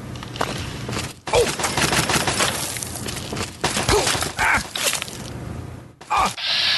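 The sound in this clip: Turret gunfire in a video game comes as loud, rapid bursts of shots that run on for several seconds, broken by a few short pauses, with sharp cracking and shattering noises mixed in.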